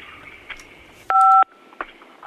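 A single telephone keypad tone, pressed on a phone during a call as a playful high five, sounds as one steady two-note beep lasting about a third of a second, set between faint clicks and soft line hiss.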